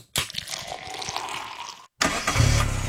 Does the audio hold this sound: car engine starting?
yes